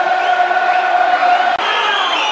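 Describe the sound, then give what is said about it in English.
A football crowd at a Millwall match against Wigan whistling near the end of the game: many shrill, sustained whistles layered over a loud crowd roar. “Whistles from the crowd.”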